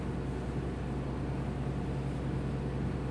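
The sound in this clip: A boat engine runs at full throttle, pushing the vessel to about 10 knots. It makes a steady, loud, unbroken drone with broad rushing noise and no change in pitch or level.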